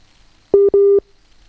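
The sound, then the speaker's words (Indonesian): A telephone busy signal sounds while a dropped call is being reconnected: two loud, steady mid-pitched beeps, a short one followed at once by a longer one. “Wah, ini kita menghubungkan ulang ya, sobat ya, dengan Bu Sofia pagi hari ini.”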